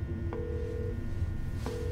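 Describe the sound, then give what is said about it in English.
A mobile phone being dialed gives two long, steady electronic tones, each starting with a short click, over a low background hum. “The signal turns green. She starts the dial.”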